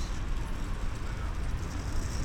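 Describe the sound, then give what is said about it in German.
A city bus on line 3 toward Bachgraben pulls up at a stop, giving a steady low engine rumble with broad traffic-like noise that holds at an even level throughout. “Ja, ein Bus ist gerade angekommen. Es ist die Linie 3, Richtung Bachgraben.”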